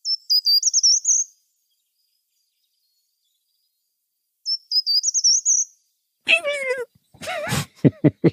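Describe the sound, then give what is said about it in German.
Two short song phrases of a short-toed treecreeper, each a quick run of thin, high notes, separated by silence and followed by a person speaking. “Okay, ich werde jetzt an dieser Stelle den Gartenbaumläufer einblenden und noch raussuchen.”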